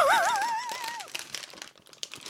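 A snack packet of reindeer jerky crinkles as it is torn open along its side. A brief wavering high tone comes first, then soft, scattered crackles and rustles that stay fairly faint.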